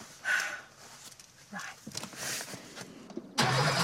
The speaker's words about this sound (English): Please prepare the car and pull off when you're ready.